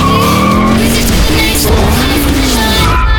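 An Isuzu X-Series Pick Up Sport truck driven hard with its tires skidding: a loud, continuous engine roar shifting in pitch under sustained squealing rubber.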